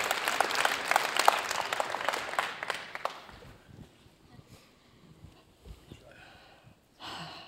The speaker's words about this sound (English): All these applauses.